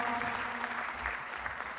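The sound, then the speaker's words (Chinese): Audience applause: faint, continuous clapping from many hands that stays even in level throughout. “每一个掌声都是对主持人的一个赞赏啊，赞赏啊。”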